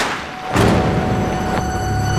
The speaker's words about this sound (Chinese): 怎么回事？谁开的枪？